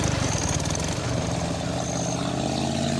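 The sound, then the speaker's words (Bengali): A motor boat engine turning and heading off across a marsh, a continuous idling drone with a buzzy putter that holds at a steady level from start to end, with no voices. “তারপর নেমে গিয়ে তার motor বোটের মুখ ঘুরিয়ে আবার জলায় অদৃশ্য হয়ে গেল।”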